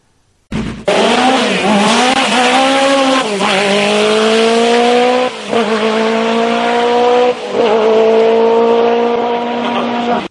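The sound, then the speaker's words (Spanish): A Lancia Delta S4 rally car engine at racing speed roars loudly and without a break. Its pitch climbs sharply at first and then holds high and steady, with two brief drops in the middle. “Mira cómo suena el S4.”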